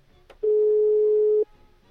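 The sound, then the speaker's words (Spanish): A telephone call connects with a short click followed by a single steady mid-pitched tone lasting about a second, then quiet. “vamos a esperar a que se enlace la llamada y esperamos a que nos contesten.”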